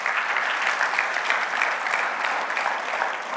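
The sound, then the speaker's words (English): A church audience claps hands in steady, continuous applause, a dense even patter of many hands with no clear pauses. “If you're glad for Jesus, let me hear your hands this morning.”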